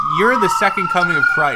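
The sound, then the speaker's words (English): Police car sirens wail faintly in the background as a steady high tone, mostly masked by continuous talking in the foreground. “Listen to those police sirens in the background”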